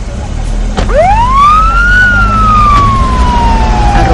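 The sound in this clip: Siren of a police patrol car: a single loud wail that sweeps sharply up in pitch, then falls slowly, over a low rumbling engine.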